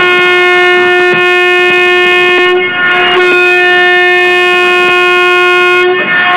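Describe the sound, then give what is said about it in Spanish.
A loud, sustained multi-tone horn sounds as a passenger train departs a large city station on its first run at 5:35 in the morning. The long steady blast dips briefly midway, with rail rumble underneath. “Con alrededor de unas 200 personas arrancaba el primer viaje de este tren de La Sabana”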